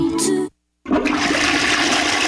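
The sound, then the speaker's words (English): A toilet flushing and overflowing gives a loud, steady rush of water that stops briefly, then surges back just as strongly and keeps going. “The toilet's overflowing. No, don't overflow.”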